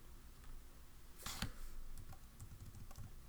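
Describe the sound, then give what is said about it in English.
Computer clicks and keystrokes while someone edits timelines on screen, many light, quick taps over a soft background hiss, with one sharper, louder clatter early on. “We're clicking timelines on the computer screen.”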